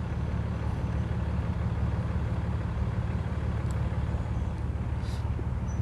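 A big old truck engine runs in a steady, unbroken low rumble with a broad noisy hiss on top, holding even loudness throughout.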